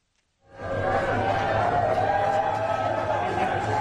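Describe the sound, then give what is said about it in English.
A crowd greets U.S. President Joe Biden in Nantucket, a Massachusetts beach town, on Small Business Saturday. Dense, steady crowd noise swells in after half a second and holds at an even level to the end. “That's the sound of a crowd greeting U.S. President Joe Biden in Nantucket, a Massachusetts beach town”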